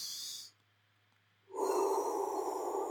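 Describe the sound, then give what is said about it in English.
Heavy, audible breathing during a focus routine before stepping in to a shot: one breath trails off into a second of near silence, then a strong, sustained rush of air follows and holds to the end. “So we're going to step in, breathe in.”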